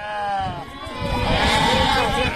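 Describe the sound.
Sheep bleating: a flock belonging to nomadic herders, about 300 animals, during drought. Several wavering bleats overlap and continue loudly through the whole stretch.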